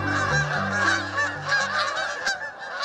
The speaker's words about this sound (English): In the interior of North America, flocks of Canada geese might also have another species called cackling geese mixed in.